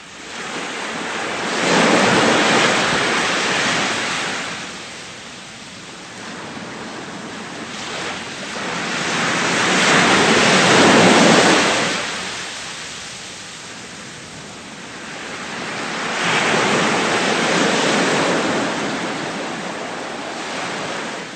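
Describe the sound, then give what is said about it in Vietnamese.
Waves surge and wash past as a ship, its anchor just raised, sails quickly across a bay. Three broad swells of rushing water rise and fall at a slow, even pace, with steady hiss between them and no voices. “dây neo được kéo lên và con tàu lướt nhanh trên làn nước xanh sẫm của vịnh Grand Belle.”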